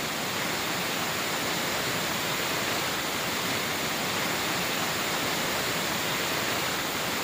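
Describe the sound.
The Salto del Nervión waterfall after abundant rain, a steady, dense, hissing roar of falling water with no breaks or voices, even in loudness throughout.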